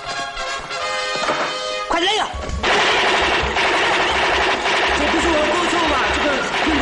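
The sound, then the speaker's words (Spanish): Automatic gunfire from a weapon going off by itself in a 1968 adventure comedy film scene, loud rapid bursts of shots continuing for several seconds beneath ongoing talk. “Entonces se quita el pasamontañas para estudiarla mejor y el arma se le dispara sola.”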